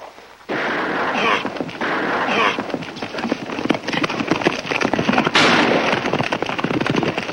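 Pistol shots fired by the last rider of a cavalry patrol speeding over a scrub-grown hill. Sharp, loud reports burst out over a dense, continuous roar of noise that runs throughout.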